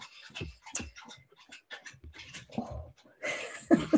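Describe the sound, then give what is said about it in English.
A thirsty dog lapping water: a quiet series of short, wet, splashy laps in an uneven rhythm, growing louder and denser near the end, heard alone. “Thirsty dog, sorry.”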